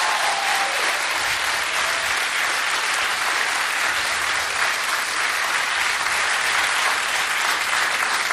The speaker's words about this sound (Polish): Proszę raz jeszcze o oklaski, żeby było słychać, że nas jest dużo.